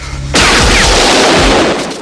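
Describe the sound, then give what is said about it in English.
A single loud gunshot in a cave cracks out sharply, then rumbles on in a long, heavy decay that slowly fades over almost two seconds. “A soldier startles Rambo, then gets shot.”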